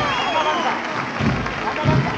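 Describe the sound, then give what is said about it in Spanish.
Crowd cheering and applauding in the streets of Jaén as el Abuelo passes during a Passion procession in the early morning of 2023, a dense, steady roar of many voices with no clear breaks. “los vítores de Viva el Abuelo. El público emocionado”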